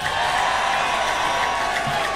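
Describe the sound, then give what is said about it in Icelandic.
Audience applause for a band member introduced on stage during a live band performance, a dense, steady wash of clapping that holds at an even level throughout with no clear pauses. “Þetta hægri hönd, Óskar Guðjónsson, gef honum gott klapp.”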